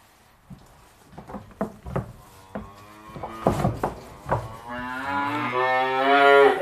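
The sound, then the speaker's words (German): Calves mooing in a barn, kept apart from their mothers. Several knocks and taps on wood come first, then one long, loud, sustained moo. “Ein paar Tage bleiben die Kälber jetzt im Stall.”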